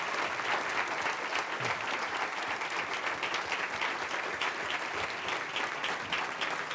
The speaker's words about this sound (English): For our radio audience, that's the sound of an extended standing ovation.